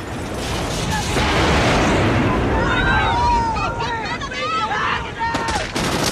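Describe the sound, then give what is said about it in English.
Gunfire and a massive explosion roar through a shootout. The roar is loud, dense and sustained, and holds across the whole stretch without easing. Shouting voices rise over the din in the second half. “fires off a shot, causing a massive explosion.”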